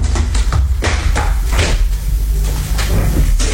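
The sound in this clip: A door being opened to let a visitor in, heard as a few sharp wooden clunks and thuds over a steady low rumble, with no talking.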